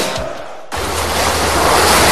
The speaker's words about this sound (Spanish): El océano. El océano. Fuente de vida, punto de partida de la biosfera y da esperanza. Esperanza es el futuro de nuestro planeta. Las olas que llegan a las costas nos dan aire,